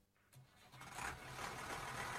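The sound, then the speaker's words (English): An engine runs, a steady mechanical rumble that builds over the first second and then holds loud and even to the end. “Turn that engine off now.”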